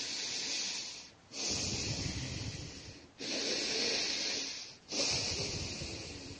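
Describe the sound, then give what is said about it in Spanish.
Loud heavy breathing sound effect of something breathing behind a door: four long, harsh, hissing breaths in a slow rhythm, separated by brief gaps, with a rough low rasp under each. “Al otro lado, siempre se escuchan ruidos de respiración muy fuerte.”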